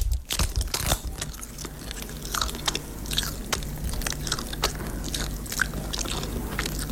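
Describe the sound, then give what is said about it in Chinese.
Crunchy biting and chewing of ejiao guyuan paste, a vacuum-packed donkey-hide gelatin snack with black sesame, walnuts, red dates and goji berries: many quick, crisp bites and mastication noises in close succession, with no talk. “原料好、产品好的这个阿胶固元膏。姐你来先尝一口，咱先不多说。”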